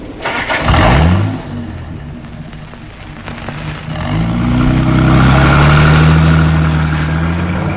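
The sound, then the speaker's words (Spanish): A car engine starts and the vehicle drives off, part of a convoy a lieutenant sets moving. A brief revving burst comes first, then a steadier engine drone that builds and rises in pitch as the car pulls away. “El teniente Harrison puso en movimiento el vehículo”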